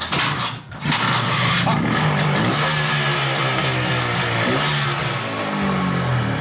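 An old, mostly original petrol engine is started with the fuel tap opened and the choke set. A brief noisy burst and a short dip give way to a loud, steady running drone whose tone wavers slightly.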